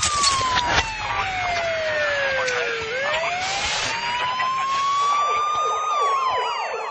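A police siren wails near a school, its pitch sweeping up and down in long continuous cycles, loud and steady throughout with no talking.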